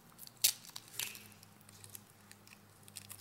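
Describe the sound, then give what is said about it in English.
The plastic top seal of a self-serve communion cup is peeled back, giving two short, sharp crackles followed by faint, soft rustling. “If you would, go ahead and take out your self-serve communion cup. Peel back the top layer.”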